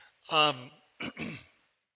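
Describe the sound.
A throat being cleared: a rough voiced rasp followed by two short, harsh bursts, fairly loud and alone with no talk around it.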